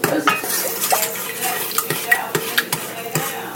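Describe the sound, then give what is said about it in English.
A spoon stirs sugar in a pot on a stove at medium heat, making many irregular metallic clinks and scrapes over a steady, noisy hiss, with no one talking. “I'm turning on the stove at medium heat, and I am now stirring this.”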